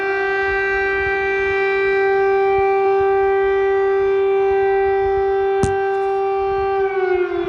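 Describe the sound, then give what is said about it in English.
Air raid siren sounding in Kyiv, Ukraine, in the morning: a loud, sustained tone with strong harmonics that holds one pitch almost throughout and sags slightly near the end. “Air raid sirens have gone off in a number of cities, according to several local Ukrainian media outlets.”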